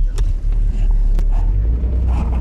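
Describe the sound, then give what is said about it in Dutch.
A car driving over rough, bumpy ground along a dike: a steady, loud, low rumble that runs without a break, with a few faint knocks and jolts on top. “zullen we maar een stukje rieden? Ik ben heel benieuwd hoe dat gaat. Ja, zeker. Hol even de riem om, want het is wel aardig roeg te rijden.”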